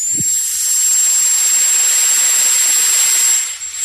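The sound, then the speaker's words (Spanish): A dentist's drill turbine runs continuously, giving a loud, steady, high-pitched whine over an airy hiss that holds level for several seconds before dipping briefly near the end. “Esto te suena, ¿no? Nos suena a todos. Es la turbina de un dentista.”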